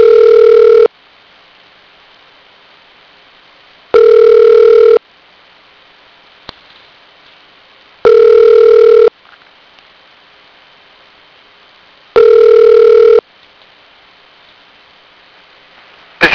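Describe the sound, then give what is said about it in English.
A telephone redials a number and produces four evenly spaced ringback tones, each about a second long, separated by roughly three seconds of near silence. One faint click falls between them. “Re-dialing the number.”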